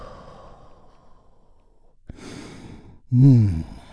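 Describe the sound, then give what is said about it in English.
A deep breath is taken in and released during a guided relaxation: a faint breathy lead-in, a rushing inhale, then a loud, voiced sighing exhale. “we begin by taking a big, deep, healing breath all together. Here we go. And release.”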